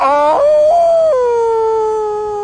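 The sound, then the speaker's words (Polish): A man imitates a wolf howl to call to wolves: a loud, sustained voiced howl that wavers, then drops to a lower held note that slowly fades. “David Attenborough próbuje właśnie nawiązać kontakt z wilkami w jednym z licznych przyrodniczych seriali”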